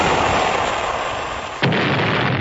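A torpedo is fired at a target ship: a steady rushing roar, then one sudden, sharp, loud blast about two-thirds of the way through, after which the rumbling continues.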